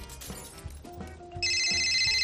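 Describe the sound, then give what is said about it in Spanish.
A telephone rings, cutting in partway through with a loud, steady, high electronic trill after a stretch of low, quieter thumping sounds. “Uy, está llamando Ignacio.”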